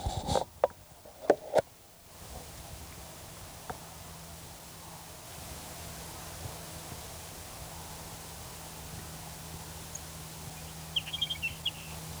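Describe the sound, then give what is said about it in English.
Sage sparrow song: a faint, high, thin phrase of chirps near the end over steady hiss, preceded by a few sharp clicks at the start. “Here's sage sparrow number 5.”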